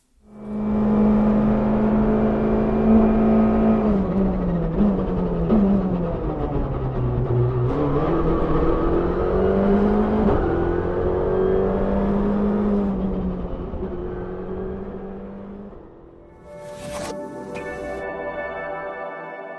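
Engine of a new-generation rally competition car, freshly homologated and built for lower-tier events, driving with a loud, sustained tone whose pitch rises and falls repeatedly for about fifteen seconds before easing off.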